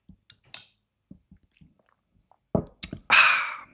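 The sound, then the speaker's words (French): A small sip of coffee to rinse the throat. Faint, scattered mouth clicks lead into a louder slurp and swallow at the end. “Maintenant, je bois un petit coup de café pour me rincer la gorge.”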